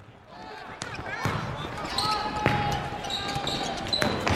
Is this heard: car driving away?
no